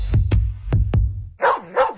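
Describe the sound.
A dog barks four quick, sharp barks, then gives two longer, higher yelping barks, loud and alone with no talking.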